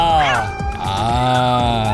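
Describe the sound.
Cat meowing in loud, drawn-out calls whose pitch wavers up and down, with a dense layer of other sound beneath.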